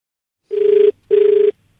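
A telephone rings twice before a call is answered. Each ring is a short, steady buzzing tone with a clear pitch, separated by a brief pause and loud against silence.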